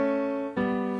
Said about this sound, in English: In this case, the chords are going from an A to a G, which would sound like this on its own.